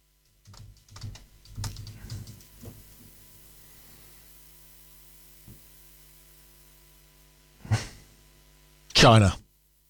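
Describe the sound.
Typing on a computer keyboard while searching online: a few scattered bursts of quick clicks early on, then sparser taps over a low steady hum.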